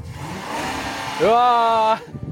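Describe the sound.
Car engine revving as the driver presses the gas: a low rumble, then a sharp rev rising in pitch that holds steady for under a second before cutting off.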